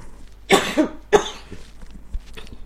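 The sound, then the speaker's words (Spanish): A few sharp coughs from a woman, two loud bursts close together and another strong one about half a second later, then quieter throat noises, over low steady background hum. “Perdón, voy a toser.”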